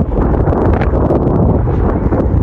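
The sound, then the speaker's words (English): Wind buffets a microphone with a steady, dense low rumble and rustling gusts that continue unbroken for the whole moment, with no talk. “Maybe we'll cut off that wind right there and then bounce.”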